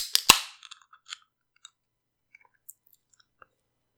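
A can of beer is cracked open with a sharp pop and a brief fizzing hiss, followed by a few faint clicks.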